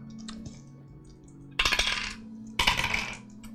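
Dice are rolled during a tabletop role-playing game. Two sharp bursts of clattering tumbling clicks each settle within about half a second, over a faint low hum.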